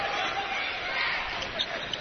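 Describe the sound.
A basketball is dribbled on a parquet floor during a college game in Sioux Falls, South Dakota. A few faint bounces come through under a steady wash of crowd noise.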